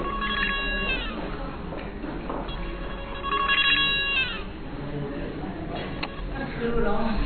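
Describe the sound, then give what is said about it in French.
A mobile phone ringtone plays in repeated bursts of bright, high melodic notes, with quieter gaps between them. “Mon téléphone sonne, super.”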